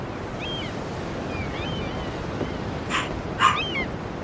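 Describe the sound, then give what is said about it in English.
A dog gives two quick, sharp barks near the end, rising over a steady rushing noise like surf, with faint high chirps scattered earlier and no voices. “Was that dog in the show, or is that the dog in the background? That was my dog.”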